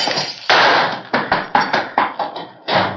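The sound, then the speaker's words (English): Gunshots fired to shoot out the lights, with glass shattering: a rapid run of sharp, bright cracks and brittle breaking impacts, each one hitting hard and decaying quickly. “Sorry, I had to shoot out the lights, but I didn't want him to hit you.”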